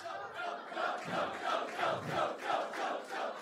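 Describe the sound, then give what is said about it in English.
A crowd of friends cheering together in a steady, rhythmic chant, a run of loud repeated pulses evenly spaced for a few seconds. “That's not fair because you cheered yes.”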